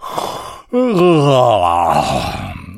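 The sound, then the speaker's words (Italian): A human voice imitates a lion king's big, open-mouthed yawn: one long, loud, voiced groan whose pitch dips and then levels out, after a short breathy sound and a brief pause. “Buongiorno, rispose Sua Maestà e sbadigliò,”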